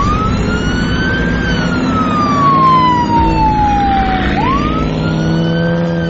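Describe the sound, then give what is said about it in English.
A police car siren being switched on: a loud continuous wail that slides slowly down in pitch, then sweeps back up, over a steady low engine rumble. “Well, time to turn on the Wii-Woo lights.”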